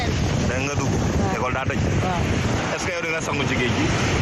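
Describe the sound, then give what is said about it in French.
High ocean waves breaking on the fine sand of Mboro beach: a steady, loud, broad roar of surf mixed with wind, with a voice talking over it throughout. “Les vagues hautes de la plage de Mboro caressent le sable fin sur des centaines de mètres.”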